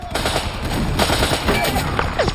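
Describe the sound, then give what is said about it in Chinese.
Dense machine-gun and rifle fire in a battle at the Bénouville bridge against retreating German troops, with rapid overlapping cracks and bursts that run loud and unbroken through the whole clip. “除了交火声，各个排还在大声喊着代号，嘈杂的声音从4面8方传来，”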